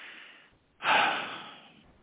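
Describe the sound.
A single sharp intake of breath, a sudden, breathy hissing inhale that bursts in loudly and then tapers away over about a second. No words are spoken.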